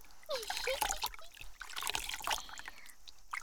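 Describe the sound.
Water is poured and sloshed over a person's head to rinse it, splashing and trickling in irregular bursts, with brief lulls between pours and no talking.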